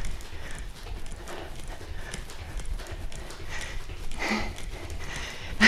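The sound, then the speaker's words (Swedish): Feet kick sideways and jump during a workout, making a steady run of soft rhythmic thuds and scuffs that end in a louder hit. “Och så kickar vi i sidled. Sätter ut hälen. Och här kan du välja att gå över till att hoppa.”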